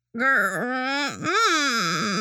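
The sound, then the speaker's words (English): A woman groaning strangely while rocking back and forth in an interrogation: a continuous, strained, moaning voice with wavering pitch that dips low briefly in the middle and then rises again, about two seconds long. “She's groaning in a very strange manner.”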